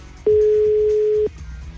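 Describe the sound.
Telephone ringback tone while calling a woman's phone: a single steady, mid-pitched tone lasting about one second, starting and stopping abruptly over faint background noise.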